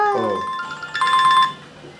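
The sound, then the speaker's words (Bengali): A mobile phone ringtone plays as a call comes in from a father, with a melodic electronic tune of clear, sustained notes stepping between pitches. It is moderately loud and steady, with a quieter tail at the end. “আরে বাবার phone.”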